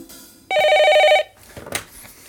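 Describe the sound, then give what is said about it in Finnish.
A telephone rings with a single trilling burst of bright, high bell-like tones, followed by quiet and a brief faint noise. “Huokaisin helpotuksesta, kun Martta vihdoin soitti.”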